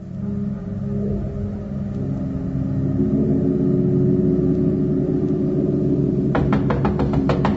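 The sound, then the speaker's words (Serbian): A car engine rumbles low and steady at night as the car pulls up and stops. The rumble grows slightly louder, and a few sharp ticks come near the end. “Jedne noći zaustaviše se kola.”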